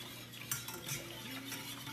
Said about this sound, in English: So you have to remember that you have to stir constantly.